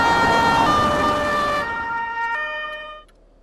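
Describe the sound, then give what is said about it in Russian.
An ambulance siren blares as it speeds through city streets, a loud tonal wail over road and engine noise that dims partway through and fades out near the end. “По улице города мчит скорая помощь.”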